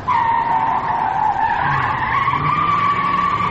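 Car tires squeal in a long skid from a car driven too fast. The steady, loud screech wavers slightly in pitch for several seconds, with a low engine drone joining underneath in the second half.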